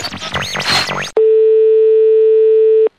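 Telephone ringing tone heard while calling a friend: one long, steady, loud beep that cuts in abruptly after a short burst of warbling, sweeping electronic sounds, then stops cleanly.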